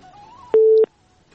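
Busy tone after a phone call connection drops: a single short, steady, mid-pitched beep lasting about a third of a second, with a faint thin hum before it.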